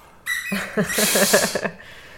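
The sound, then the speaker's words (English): A new puppy chewing on the head of a squeaky monkey toy, giving a loud, high, drawn-out squeak followed by a quick run of wavering squeaks, with no talk. “What you're hearing is the sound of our new puppy, Hades, chewing on the head of a poor squeaky monkey.”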